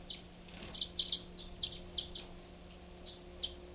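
Birds call in many short, sharp, high chirps that come in quick clusters and then scatter, over a faint steady low hum.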